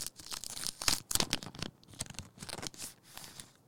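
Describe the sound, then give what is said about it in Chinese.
Paper rustles and tears as someone opens the handmade paper packaging of a music album, which has no heat-sealed plastic wrap. Many quick, quiet crinkles and tearing sounds follow one another. “来，你 ASM 啊，把它打开一下， 拆开来。”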